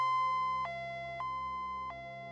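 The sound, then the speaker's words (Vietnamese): An ambulance siren sounds through an upscale villa neighborhood at night, a two-tone wail alternating between high and low pitches every half second or so at a steady, moderate level. “tiếng xe cấp cứu vang vọng cả khu biệt thự cao cấp.”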